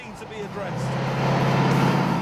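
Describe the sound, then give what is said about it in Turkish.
A car engine drones steadily on a test drive, the car having a steering fault that pulls it quickly to the left. The low hum holds even, growing slightly louder partway through. “Kesinlikle bir sorunu var. Çünkü ellerimi kaldırdığımda hızlı bir şekilde sola dönüyor.”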